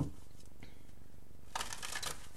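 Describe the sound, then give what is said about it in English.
A deck of cards is handled and shuffled, with soft rustling early on and then a quick, louder riffling burst in the second half. No voices are heard. “let's go ahead and get some additional cards”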